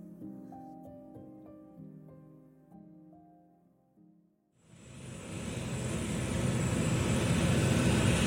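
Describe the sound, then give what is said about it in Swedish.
A passenger airliner taking off from Barcelona airport, heard as a broad engine roar that swells in and keeps growing louder. It follows a stretch of soft, melodic music that fades out just before the roar begins. “Germanwings flight 9525 lyfter från Barcelona flygplats.”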